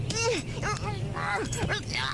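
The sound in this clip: A dog barking, a quick run of several short, fairly loud barks and yips with bending, whiny pitch.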